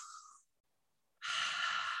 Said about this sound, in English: Let's try that again. It's a deep breath.